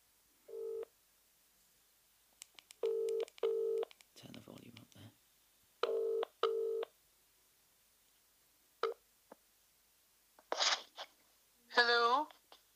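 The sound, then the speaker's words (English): Touch-tone beeps from a telephone being dialed, a series of short, steady electronic tones spaced irregularly, with a few brief rustling and higher-pitched noises in between. “So here we go. I'm dialing.”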